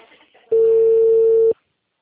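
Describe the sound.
Telephone ringback tone on an outgoing call: one steady, mid-pitched tone lasting about a second, loud and unbroken, then stopping abruptly. A faint low murmur comes just before it.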